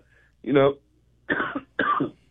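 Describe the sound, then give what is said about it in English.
A few short, raspy coughs from a person with a slight cough, three separate bursts with brief pauses between them, loud and clear against near silence. “sorry, I got a little cough.”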